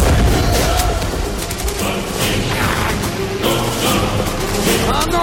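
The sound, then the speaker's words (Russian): A grenade explodes in a soldier's hand amid a dense war-film battle scene, with heavy gunfire and booms layered into a loud, continuous roar that swells into a sharp burst partway through. “Красноармеец, сраженный пулей, не успевает бросить гранату. Она взрывается в его руке.”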